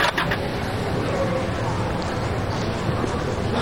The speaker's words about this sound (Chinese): 老陈开车吧。 好嘞。